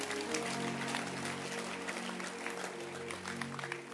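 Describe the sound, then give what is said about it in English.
Applause from an audience at a talk, a soft, steady patter of many hands clapping at once, faint and even throughout. “Oh, can you clap your hands? Beautiful.”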